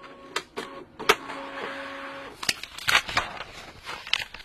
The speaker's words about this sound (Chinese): 我拉一份打印稿，你们自己看看好吗？